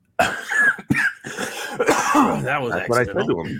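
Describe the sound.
A short burst of coughing and throat clearing opens, then people talk with lively, wavering voices.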